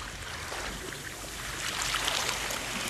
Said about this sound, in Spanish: Ve acoplando tu respiración al sonido de las olas marinas.